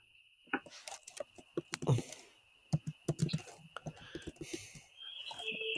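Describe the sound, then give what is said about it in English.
Typing on a computer keyboard: many rapid, irregular key clicks and taps in quick bursts, fairly faint, with short pauses between runs of keystrokes. “I tried to type 0 and I typed 6969.”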